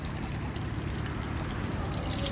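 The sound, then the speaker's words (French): Clean water is poured over the left hand for washing, a steady, even splashing trickle that runs unbroken throughout. “Une fois, alors évidemment, on prend l'eau pure et... L'eau sale, on la verse à l'extérieur. On ne se lave pas les mains à l'intérieur. On verse une fois comme ça sur la main gauche.”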